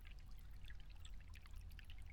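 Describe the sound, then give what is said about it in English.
River water flows in a soft, continuous burble and trickle, faint and steady throughout, with no other sounds standing out. “Yes, right here by the river.”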